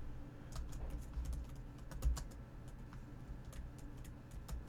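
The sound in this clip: Typing on a computer keyboard produces a quick, irregular run of faint key clicks over a steady low hum.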